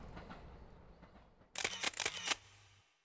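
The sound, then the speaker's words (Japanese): A camera shutter firing a quick run of several crisp mechanical clicks in close succession over a faint, low background. “同じように写真をね撮らせていただいて記念に残したいと思います”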